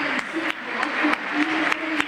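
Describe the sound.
Football stadium crowd applauding as players are announced, with a few sharp claps cutting through a continuous bed of crowd noise and murmuring voices at moderate level.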